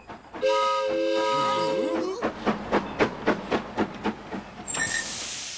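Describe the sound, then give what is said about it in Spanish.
A sightseeing ride train sounds a loud, steady multi-tone whistle, then a rapid run of many rhythmic chugs, and ends with a bright burst of hissing steam. “¡Miren! ¡Un tren de paseo! ¡Vamos a dar una vuelta!”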